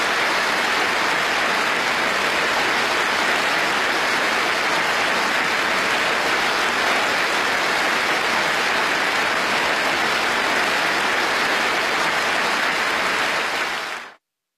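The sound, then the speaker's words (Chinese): Warm applause from the audience during a speech at the opening ceremony of the Boao Forum for Asia: a dense, steady clatter of many hands that holds evenly for about fourteen seconds and then stops abruptly. “演讲中，全场多次响起热烈掌声。”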